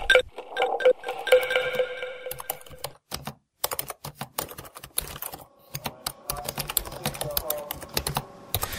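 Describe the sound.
Typing on a computer keyboard makes a rapid, irregular clatter of many sharp key clicks. Some tonal ringing sounds mix in near the start, and the keystrokes continue in busy runs to the end.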